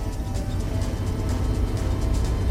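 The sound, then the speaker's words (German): A car engine roars during a chase: a steady, rough, low rumble holds at a fairly even level for the whole short stretch, with no voices over it. “Gib Gas, Joey. Hä? Gib Gas, Leo ist hinter uns.”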